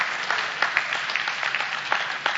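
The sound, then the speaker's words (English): An audience claps in a continuous patter, with a few sharper, louder claps standing out at irregular moments. “You missed a good place to clap.”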